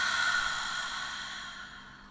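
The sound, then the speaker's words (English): A slow, deep breath during a seated breathing exercise, heard as one long, airy exhale that starts fairly strong and fades gradually over about two seconds, alone and without talk. “let's take a nice deep breath through our nose and breathe out.”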